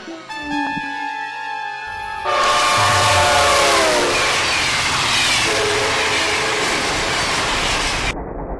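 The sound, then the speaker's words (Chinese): A northbound passenger train sounds its horn as a loud chord of stacked tones for about two seconds. A loud, steady roar of the moving train follows and continues for several seconds. “姐在北上的列车上”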